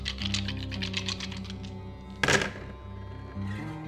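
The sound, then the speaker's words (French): Six dice are shaken and thrown in a tabletop game session. Rapid light clicking rattles for over a second, then one loud clattering burst is followed by a quieter low hum. “Et maintenant, je lance 6 dés, en fait.”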